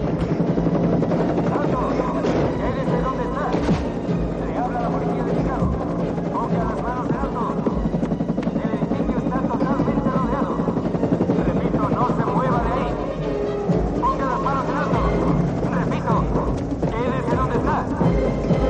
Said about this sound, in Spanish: El helicóptero se sitúa sobre ellos.